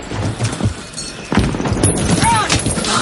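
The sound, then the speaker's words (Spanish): Gunfire and impacts in the World War II film Saving Private Ryan: sharp shots and heavy thuds punctuate a tense scene, with a voice speaking over them. “Alguien dispara desde el otro lado. Melis dispara al primer alemán y se abalanza sobre el segundo.”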